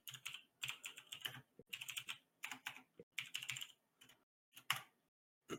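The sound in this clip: Typing on a computer keyboard while pulling up a web page: bursts of rapid clicks and clacks separated by short pauses, fairly quiet, with no voices.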